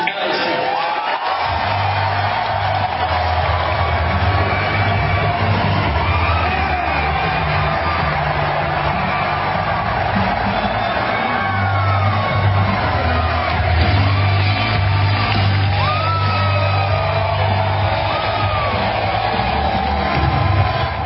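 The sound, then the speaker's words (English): A large crowd cheers, yells and whoops to welcome Alex Jones at an InfoWars rally. The roar is loud and continuous throughout, with rising shouts scattered across it. “if you're an InfoWars fan, if you've been following the show for a while, you really should have been here to see the crowd welcome Alex. It was amazing.”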